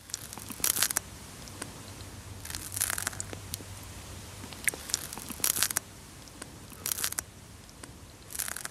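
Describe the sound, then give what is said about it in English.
A snail eating a piece of lettuce in an anechoic chamber: faint, irregular crunching and tearing bursts in a few clusters, with small scattered clicks between them. “Believe it or not, that's the sound of a snail chowing down on a piece of lettuce.”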